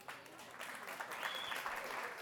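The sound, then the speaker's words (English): Applause from an audience at a stage event as a speaker is thanked, a faint, steady wash of many hands clapping that stays even throughout. “A big hand for our friend Lori.”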